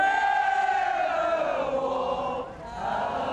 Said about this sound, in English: Relatives cheered and sobbed in court before bursting into song.